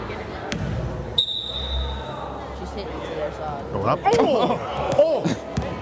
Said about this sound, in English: Now, this is seventh grade girls basketball in Louisiana. Great video. She's the point guard, but she also takes the opening tip. We've got the video here.